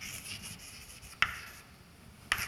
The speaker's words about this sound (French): Je vais écrire ça comme ça.